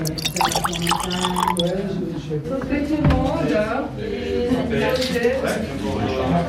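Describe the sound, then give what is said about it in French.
Grand Chasselas wine is poured into a small glass, a soft liquid trickle and drip heard under people talking. “Je vous propose de vous remplir un petit verre de Grand Chasselas.”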